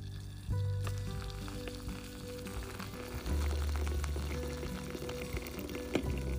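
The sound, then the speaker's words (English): Kona coffee dripping through a press filter gives a continuous soft hissing trickle with a few small clicks and knocks, heard alone without talk. “So I have my coffee mug, my press, my coffee, my filter, and this is the sound of dripping with love.”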